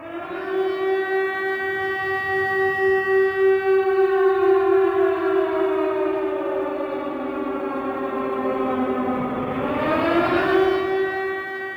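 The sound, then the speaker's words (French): A siren sound effect used as a spoiler warning: a steady wailing tone that slowly sinks in pitch, then sweeps sharply back up near the end, sounding alone with no talk. “C'est ma sirène à spoiler, du coup ça veut dire qu'il y a des spoils.”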